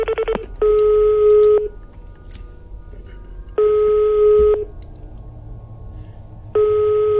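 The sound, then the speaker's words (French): A telephone number is dialed early in the morning: a quick burst of short keypad beeps, then three long, steady electronic tones repeat with pauses between them. “J'avais scrupule à devoir téléphoner si tôt à l'abbé, mais j'étais convaincu qu'il me pardonnerait quand il découvrirait l'urgence de la situation.”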